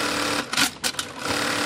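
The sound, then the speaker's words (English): An industrial sewing machine stitching a bra, tacking on the shoulder straps in one of the final assembly steps. A fast, steady mechanical whir is broken by a few brief uneven bursts in the middle. “This is the sound of a bra in the making.”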